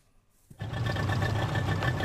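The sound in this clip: A boat engine carrying a crew across floodwater near a waste landfill starts after a brief quiet moment, then settles into a steady, buzzing motor drone with a low, even hum.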